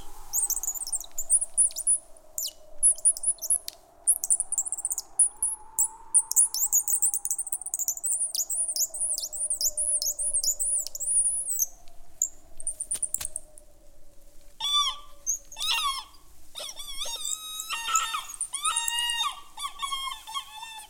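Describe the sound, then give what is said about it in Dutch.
Birds chirp and twitter in tall trees with wind-stirred leaves: many quick, high, trilling calls run throughout, growing busier and denser near the end. “wind speelde met de bladeren van de bomen die hoog boven haar torenden. Daar woonde de vogels.”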